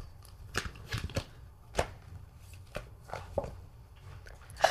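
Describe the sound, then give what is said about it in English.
Tarot cards being cut and one drawn from the deck: a few crisp papery snaps and slides, soft and spaced irregularly, with a sharper flick at the end. “pulling one tarot card. However many you would like to pull is how many we will pull. That's it? Cut the deck? Okay.”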